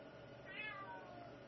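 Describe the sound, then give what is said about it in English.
A cat gives a single short, faint meow over a steady low background hiss. “And cat noise. We get cat noise tonight.”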